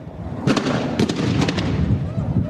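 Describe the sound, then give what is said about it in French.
Return gunfire from soldiers in Gao, Mali, after a suicide car bomb struck their armored convoy on a busy street: several quick bursts of sharp, loud cracks over a steady noisy background. “Ce que vous entendez là, ce sont des tirs de riposte.”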